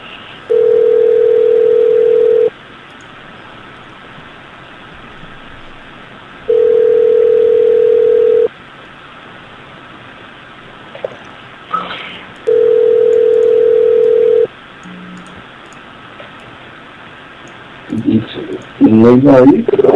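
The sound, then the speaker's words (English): Steady telephone beep tones heard while calling a place in Hawaii: three long, even, mid-pitched beeps of about two seconds each, separated by equal pauses, followed by a brief voice at the very end. “What the fuck is that? I don't know, it's like the Hawaiian beep. I get that every once in a while I call places there.”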